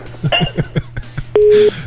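A telephone line goes dead after a caller's mother hangs up: a run of short rhythmic pulses, then one steady electronic beep tone, then a burst of hiss.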